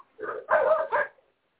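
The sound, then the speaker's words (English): A neighbour's dog barks outside in three short, harsh bursts in quick succession, the middle one the longest, with no talk over them. “And my neighbor's dog is outside.”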